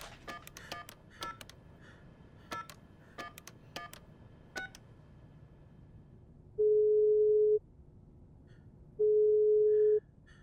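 Telephone keypad dialing tones, a quick irregular run of short, faint beeps, followed by two long, steady, even busy-signal tones separated by a pause.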